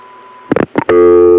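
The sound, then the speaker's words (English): A dial tone returns on a local crossbar 5 telephone line right after an outgoing call hangs up. A few sharp switching clicks come first, then a loud, steady, unbroken tone holds to the end. “The local crossbar 5 line went back to dial tone as soon as the outgoing call hung up.”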